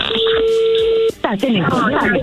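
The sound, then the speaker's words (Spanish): A telephone call being dialed: a steady, clear tone holds for about a second and then cuts off, and a voice starts talking over the line. “se está marcando a ver qué pasa”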